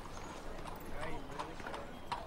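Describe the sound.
Horse hooves clip-clop as a horse-drawn carriage waits outside a country house, a few light, steady hoof knocks under continuous talk.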